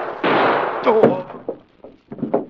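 Gunshot in a radio crime drama, fired by someone hiding in a bedroom: a loud burst of harsh noise, then a sharp crack with a brief vocal cry, followed by a few softer thumps.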